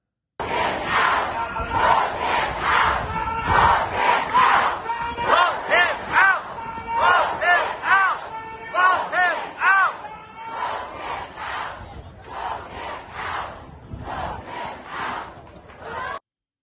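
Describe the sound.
Protesters outside the NRA convention in Houston, Texas, chanting together as a loud crowd, with many rhythmic shouted bursts rising and falling in a steady cadence.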